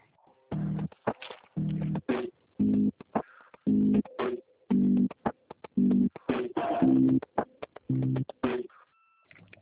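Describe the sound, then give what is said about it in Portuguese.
Telephone busy signal on an office extension: a steady series of identical mid-pitched tone pulses, each about half a second long and separated by short silences, with faint line noise between them. “O ramal lá está ocupado, você pode ligar daqui a pouquinho?”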